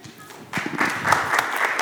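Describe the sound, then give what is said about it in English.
A church audience applauds as the senior pastor is welcomed to give the message. After a quiet half-second, a steady wash of clapping holds at an even moderate level to the end. “Thank you for the applause.”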